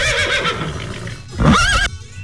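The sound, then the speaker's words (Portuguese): A horse neighs on a farm: a loud, shrill whinny with a wavering pitch, heard over steady background noise. “Tá correndo atrás do cavalo!”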